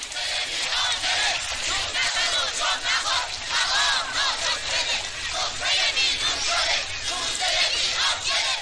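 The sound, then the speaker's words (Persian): A crowd standing on overturned carts shouts slogans, a dense, loud roar of many voices pulsing in a steady rhythm from start to finish. “مردم روی گاری‌های واژگون شده ایستادند و شعار می‌دهند.”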